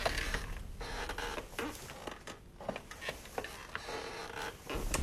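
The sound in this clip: An old rocking chair creaks among antique furniture: faint, irregular creaks and small wooden clicks that come and go on their own, with no steady rhythm.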